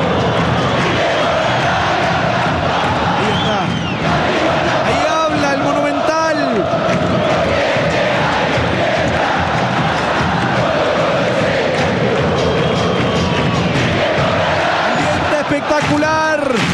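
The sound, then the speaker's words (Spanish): A football crowd at the Monumental stadium in Macul celebrates Colo-Colo's 4-1 victory over Audax Italiano, chanting and singing in sustained waves, with rising shouts over a constant roar. “El ambiental de Germancito Muñoz, del público acá en el Monumental, en Macul, en esta victoria 4-1 de Colo-Colo sobre Audax Italiano.”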